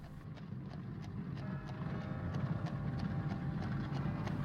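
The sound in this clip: Hooves clip-clop steadily as a horse-drawn carriage moves along at dusk, many light, evenly spaced beats over a continuous low rumbling noise.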